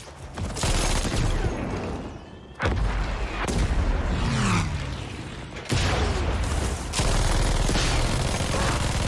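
Video-game gunfire and grenade explosions form a dense, loud barrage of rapid shots and heavy booms, nearly continuous, with a few abrupt drops where the firing briefly cuts out.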